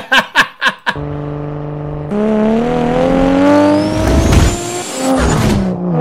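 A car with a 2JZ engine revving: four quick, sharp throttle blips, then a steady harmonic drone that jumps louder and climbs in pitch into a loud, sustained high-rev wail.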